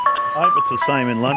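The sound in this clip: The chime of a Mr. Whippy ice cream van in London plays a bright, tinkling melody with steady tones, while a person talks over it.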